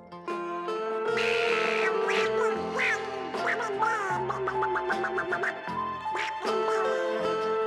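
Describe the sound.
A duck-like quacking voice on a comedy record: a human voice imitating a duck, jabbering in rapid, nasal, buzzy bursts that rise and fall in pitch, loud and nearly continuous throughout.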